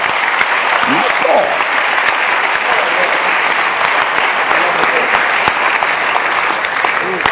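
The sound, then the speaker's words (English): A church audience clapping their hands during a sermon: loud, continuous, dense applause that keeps an even level for several seconds, with sharp individual claps standing out from the wash. “Clap your hands again for this word.”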